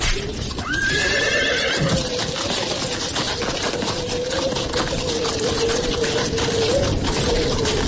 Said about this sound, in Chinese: 漂亮的新马车抖着流苏转过弯来，一路擦过一些小贩的身边，嘚嘚地往前走。